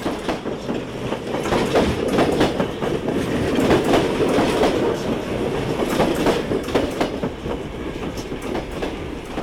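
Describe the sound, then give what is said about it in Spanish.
A train runs on rails with a loud, steady rumble and many rhythmic clickety-clack beats from the wheels, continuing throughout without talk. “para agarrar el primer tren que sale de Villa Rosa hasta Munro”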